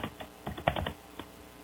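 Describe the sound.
Typing a message on a computer keyboard: a quick, irregular run of many light key clicks, with a lone tap after a short pause near the end.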